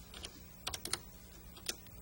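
A few faint, sparse keystrokes on a computer keyboard as a turtle-graphics program is typed in, light clicks in short clusters separated by pauses, with no voices.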